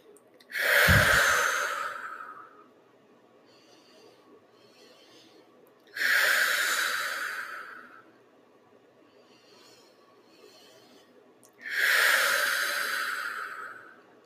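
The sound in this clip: Forceful breathing from a breathing exercise: three loud, rushing exhales of about two seconds each, evenly spaced, with only quiet breathing between them.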